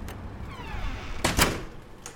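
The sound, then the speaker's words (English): A door being closed, heard as two quick, close thuds as it shuts, standing out from a faint background. “You can come in and close the door.”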